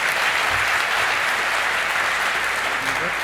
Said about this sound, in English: Again, huge round of applause for all the pros that end up working in this room